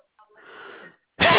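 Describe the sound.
A sneeze during a customer support phone call: a soft, breathy build-up followed by a loud, harsh burst at the end.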